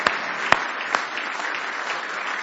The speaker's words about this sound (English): Now give him one more hand clap of praise tonight.